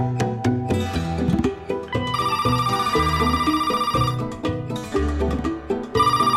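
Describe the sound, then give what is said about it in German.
A telephone rings in an architecture office, an electronic tone sounding in two long bursts over busy, rhythmic music. “Eine Woche nach der Begegnung in dem Café ruft sie an.”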